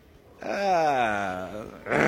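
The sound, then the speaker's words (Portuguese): A person imitates a dog's growl with one drawn-out, voiced rumble lasting about a second. The rumble starts somewhat higher and settles lower, and a second loud vocal sound begins just at the end. “Isso aí não sei se você tá só latindo ou você tá rosnando.”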